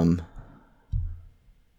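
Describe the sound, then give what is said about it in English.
A mouse click selects an option on screen, one faint, short click standing alone after a brief burst of sound at the start. “What happens if I click dynasty, actually?”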